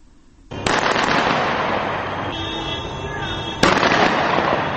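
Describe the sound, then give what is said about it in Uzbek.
Rapid gunfire near Muammar Gaddafi's compound in Tripoli, Libya, heard as a dense, continuous crackle of loud bursts that holds steady and then spikes with a sharper, louder volley near the end. “Aslida yakshanba kuni tongdanoq Liviya poytaxti Tripoli shahrining Muammar Qaddafi qarorgohiga yaqin hududida pulemyot ovozi yangradi. Mana hozir o'sha ovozni eshitishingiz mumkin.”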